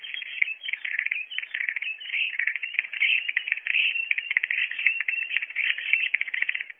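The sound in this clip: Recorded starling calls: a continuous stream of rapid chirps, whistles, clicks and rattles, fairly loud and unbroken throughout, with no voices.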